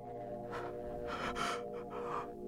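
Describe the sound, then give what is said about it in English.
A man's sharp, frightened gasps of breath as his body tenses: a few breathy bursts rising over a low steady hum, the strongest in the middle. “His body tenses, and his breath catches in his chest.”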